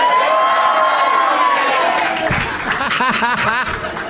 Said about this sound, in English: Half of you cheered, and half of you sang, "This is Doug Loves Movies."